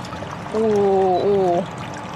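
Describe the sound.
Liquid poured over a whole Betong chicken gives a steady splashing hiss, with a held, voice-like tone sounding over it for about a second in the middle.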